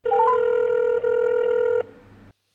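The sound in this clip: A telephone rings with one loud, steady electronic tone that opens with a few quick rising beeps and breaks briefly partway through. It then drops to a faint hum before silence.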